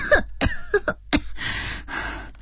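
Coughing and sputtering from a person who swallowed water after being pulled into a swimming pool: a few short, harsh coughs and gasps, followed by a stretch of breathy noise.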